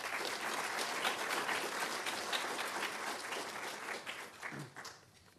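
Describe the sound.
An audience at a Commonwealth Club event applauds to welcome a speaker, the Consul General of Israel, with dense, steady clapping that stays even and then thins out and fades at the end.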